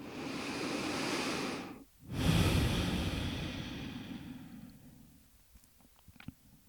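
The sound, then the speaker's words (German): Slow, deep breaths taken during a guided heart-focused meditation: two long, airy rushes of breath separated by a brief pause, fading to near quiet with a few faint clicks. “nimm 3 tiefe Atemzüge hier in den Herzraum”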